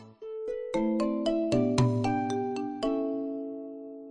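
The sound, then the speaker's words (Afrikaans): A chiming signal tone cues the listener to turn to the next picture in a picture book: a quick melody of bell-like notes in a lilting rhythm, the last note left ringing out. “Luister gerus na hierdie boodskap terwyl jy na die prenteboek kyk. Elke keer wanneer jy hierdie sein hoor,”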